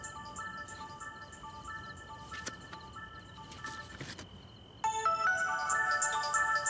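A mobile phone ringtone plays, a tinkling electronic melody of repeated high notes that becomes louder and busier partway through, with no talking.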